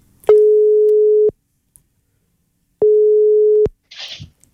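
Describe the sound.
Telephone ringing tone plays while a call is placed: two long, steady mid-pitched tones about a second each, separated by a gap of silence, then a short voice answers.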